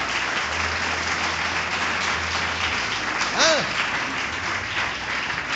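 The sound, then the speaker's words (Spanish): A church audience applauds: dense, sustained clapping fills the whole clip at an even loudness, and a brief voiced cry rises out of it midway. “Denle un aplauso al Señor si quiere.”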